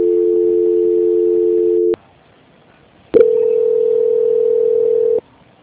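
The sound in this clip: Steady telephone line tones sound while a call is being transferred to another person. A loud, even hum holds for about two seconds and cuts off with a click. After a short silence, another click brings a second steady tone lasting about two seconds.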